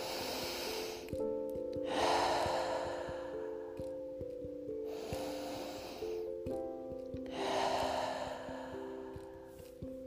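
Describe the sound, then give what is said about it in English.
Deep breaths drawn in slowly through the nostrils and released in long exhalations, a few unhurried cycles of soft airy rushing over a quiet, sustained musical drone. “the conscious breath in through your nostrils and exhaling, letting go, and releasing.”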